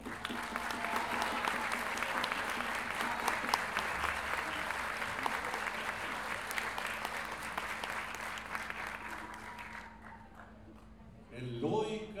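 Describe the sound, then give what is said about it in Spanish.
Audience applause at a gathering of payadores, improvising folk singers, in Lo Barnechea: dense, steady clapping that holds for about ten seconds, then thins and fades as a voice comes in at the end. “Quiero que recibamos con un gran aplauso”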